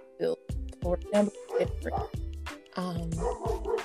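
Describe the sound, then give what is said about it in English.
A dog barking and yipping repeatedly, with many sharp, high, loud barks mixed with whining, whimpering tones in quick, uneven bursts. “I'm gonna go deal with my dog. I'll be right back.”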